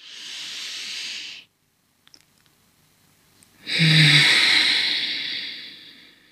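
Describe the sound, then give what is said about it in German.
Airy nasal breathing during a breathing exercise in which the belly is drawn toward the chest. Two long hissing breaths are separated by a quiet pause, and the second is louder and longer. “Also ich atme durch die Nase ein”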